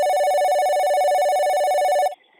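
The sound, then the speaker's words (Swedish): A telephone rings on an outgoing call: one long, loud, buzzy ring lasting about two seconds, then it cuts off abruptly, leaving a faint tail. “Låt oss ringa upp till Spektrum.”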